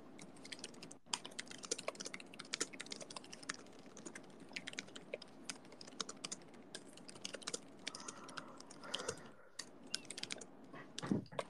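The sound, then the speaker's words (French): Fingers type quickly on a laptop keyboard, producing a continuous faint patter of many light key clicks with irregular rhythm and occasional sharper taps. “Qui tape sur son ordi là?”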